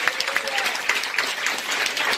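Applause from a church audience during a Spanish-language worship service, brisk, lively clapping with distinct hand claps standing out through a continuous patter.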